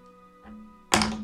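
A latch is opened slightly, giving a soft knock followed by one loud, sharp thunk that rings briefly over a steady low hum.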